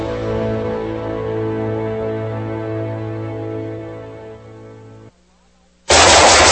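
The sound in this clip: Gunfire in an advertisement for tactical gear: a steady humming tone runs for about five seconds, falls silent briefly, then a loud, harsh blast of gunfire bursts in at the end.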